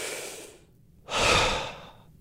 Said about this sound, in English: right now, take a deep breath.